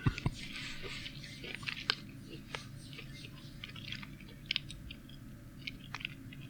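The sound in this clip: Close-up chewing of moist, gooey food: faint, steady wet squishing and mouth sounds with a few sharper crunchy clicks over a low background hum.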